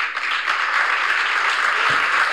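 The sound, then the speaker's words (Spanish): Audience applause for Javier Milei's speech at a live event: a dense, steady wash of clapping that runs at an even loudness for about two seconds with no clear voices on top. “Ahí lo aplauden. Él sigue hablando, ¿no? Está en vivo.”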